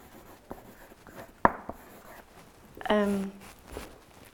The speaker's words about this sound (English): maybe I should just write that in case people don't have it. This Ubuntu.